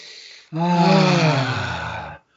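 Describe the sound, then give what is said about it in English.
A single long, deep breath, loud and sustained for under two seconds, starting sharply and stopping abruptly, alone without talk. “let's take a deep breath”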